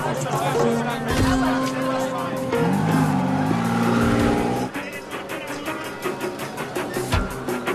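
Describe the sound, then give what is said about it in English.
A car drives off through a town in Nice, France, with loud engine revving and a brief tire squeal over road noise. The level drops noticeably after the midpoint. “The lady sits down behind the steering wheel and drives off.”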